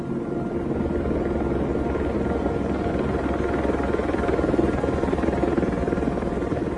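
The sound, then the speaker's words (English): Army helicopters flying, their rotors making a steady, continuous low drone with a dense rumbling texture that holds evenly for the whole stretch, with no voices. “Amy Goodman at the end, with the sound of army helicopters up to no good in the background”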